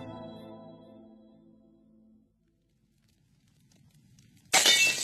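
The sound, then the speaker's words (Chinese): A china teacup smashing: a sudden bright crash near the end, after a fading tone and a stretch of near silence. “又传来一声瓷器打碎的脆响，纳威把他的第二个杯子也摔碎了。”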